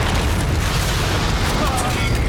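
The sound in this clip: Rocket explosions roar in a loud, dense, continuous boom that stays at full strength across the whole short stretch with no clear gaps.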